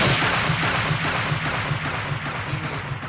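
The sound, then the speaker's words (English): Slow-motion sniper gunfire effect from the war film Full Metal Jacket: a dense, sustained roar with slow, heavy low throbs pulsing through it, loud and continuous for the whole stretch. “That's when guys are getting shot by the sniper, and it's slow motion.”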